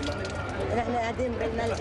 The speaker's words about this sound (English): Mohammed Rahal watches and cracks bitter jokes as his sister washes dishes in a gutter.